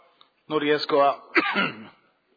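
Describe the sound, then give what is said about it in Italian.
Hoarse coughing and throat clearing from the person chairing a council meeting: a couple of rough, voiced bursts, loud and close together, with no speech. “non riesco a non tossire”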